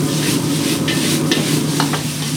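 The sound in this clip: Cumin-spiced lamb or beef, Uyghur style, sizzles steadily in a pan, with a few light stirring scrapes over the constant loud frying hiss.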